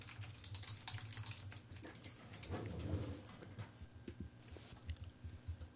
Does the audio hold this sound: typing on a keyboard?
yes

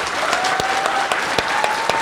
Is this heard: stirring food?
no

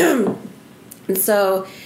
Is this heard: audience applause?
no

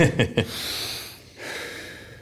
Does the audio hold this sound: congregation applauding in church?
no

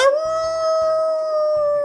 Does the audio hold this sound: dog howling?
yes

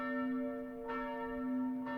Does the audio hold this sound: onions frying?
no

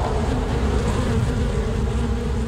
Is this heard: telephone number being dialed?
no

